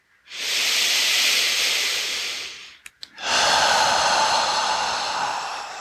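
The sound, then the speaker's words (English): Slow, deep breathing in a guided breathing exercise: two long, airy breaths with drawn-out exhales, separated by a brief pause with a couple of soft catches of air. No talking. “Don't rush your exhales. Push it all out.”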